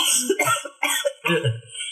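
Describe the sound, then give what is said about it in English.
Coughing from a person reacting to noxious gas from a fart, a few harsh, closely spaced coughs in quick bursts, fairly loud and with no talking over them. “I'm coughing because noxious gases.”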